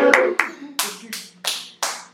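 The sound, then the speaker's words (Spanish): Applause as six sharp handclaps in a steady, even rhythm, loud and crisp. “Un aplauso.”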